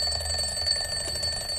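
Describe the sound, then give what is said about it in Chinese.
An alarm clock goes off at seven in the morning with a continuous, high-pitched electronic ring. The tone holds steady and fairly loud for the whole stretch, with a faint low hum beneath. “早上7点闹钟响起”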